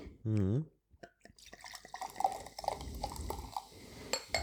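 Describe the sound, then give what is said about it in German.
Grape lemonade is poured into a glass, with a brief voice at the start and then many small splashing drips and fizzy crackles that go on irregularly to the end. “Ich werde die erstmal einschenken.”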